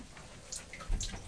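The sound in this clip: Bathwater splashing as hair is wetted in a bath, quiet trickling and dripping with one louder splash near the end.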